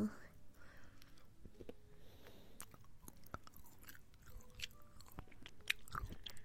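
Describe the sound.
Close-up chewing and biting of food, heard faintly: soft crunchy clicks and moist mouth sounds occur at irregular intervals, with a few sharper bites standing out.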